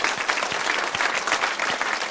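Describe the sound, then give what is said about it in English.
A church audience gives a clap offering, a dense, steady applause that runs without a break. “Give God a clap offering.”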